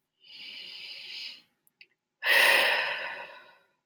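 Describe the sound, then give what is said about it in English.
A person takes a deep breath: a long, airy inhale, a short pause, then a louder, fuller exhale that fades out, with no speech. “Take a deep breath.”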